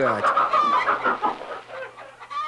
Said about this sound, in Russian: Эй, ты, с дороги мокрая курица.